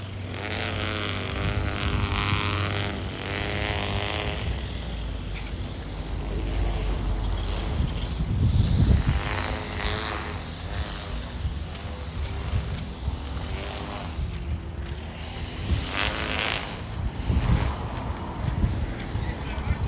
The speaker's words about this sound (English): everyone's cutting grass today, so we're just gonna, like, hold for this. You can just listen to the lovely sounds.